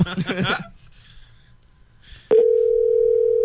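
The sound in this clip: A telephone dial tone sounds while someone calls back, starting partway through as one unbroken mid-pitched hum that holds loud to the end. Before it comes a short burst of talk and then a quiet gap.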